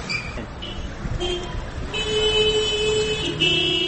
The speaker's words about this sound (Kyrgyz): 25 000 калкы бар чакан шаар экенине карабай, Баткенде кээде мынтип жол тыгындары болуп калат.